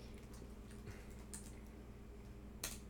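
Faint typing on a computer keyboard during a chat session: light, scattered key clicks over a steady low hum.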